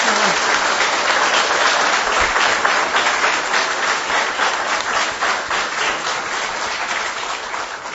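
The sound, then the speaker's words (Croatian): Warm audience applause for the author at a book promotion event; sustained, even clapping from a crowd that gradually eases in loudness toward the end. “Dame i gospodo, molim vas, pozdravimo jednim toplim aplauzom ohrabrenja autoricu knjige Vareške suze, gospođu Gretu Filipović, rođenu Njemačkoj.”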